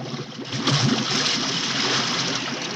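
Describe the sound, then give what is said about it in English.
Water churns and bubbles as a sinking ship goes under, with great bubbles rising to the surface. A steady, broad rushing wash swells after the first half second and holds, with low bubbling pops underneath. “As the other ship sinks, great bubbles rise to the surface.”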